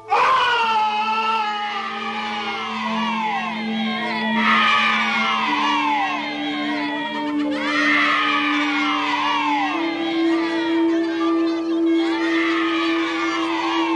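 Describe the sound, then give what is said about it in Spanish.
A terrible scream and children's shouting, heard as continuous loud, high wailing cries with repeatedly falling pitch over a steady low drone, filling the whole stretch without pause. “No tardaron en oír un espantoso alarido seguido de un escalofriante griterío infantil.”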